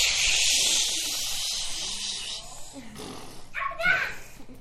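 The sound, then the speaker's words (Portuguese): A voice imitates water rushing quickly down a poorly kept mountain with a sustained, breathy hiss lasting a couple of seconds, then breaks into brief speech. “Se a montanha não está bem cuidada, a água desce muito rápido. Como é o barulho?”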